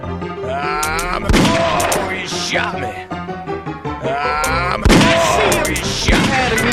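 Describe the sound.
A few sharp gunshots in a video game, each a loud crack standing out from excited voices talking over the action.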